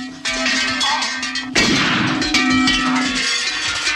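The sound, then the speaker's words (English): Heavy hanging bells in a cellar clang as a man's head strikes rows of them, a dense, continuous metallic ringing and clattering with a louder burst partway through. “He seals himself inside and hits his head on rows of hanging bells.”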